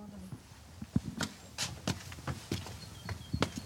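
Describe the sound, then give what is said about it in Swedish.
Footsteps climbing blue-tiled clinker stairs: irregular, soft, sharp taps over a faint background hiss. “Så nu rör vi oss upp på den blåa klinkertrappan.”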